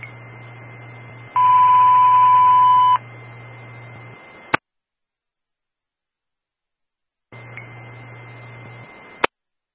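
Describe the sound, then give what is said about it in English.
Fire department box alarm tones sent over a radio channel during an evening test: a steady electronic tone with a louder multi-tone burst, ending in a sharp click, then silence, then a second tone section with another click, over a low hum. “All companies stand by for the box alarm tone, followed by the evening radio test on channel 2 of Fortis only.”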